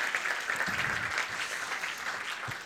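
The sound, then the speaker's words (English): An audience at a church gathering applauds to welcome a speaker. The dense, even clapping stays steady and continuous throughout, with no voices standing out. “Come on, let's give Patrick Regan, OBE, a big welcome.”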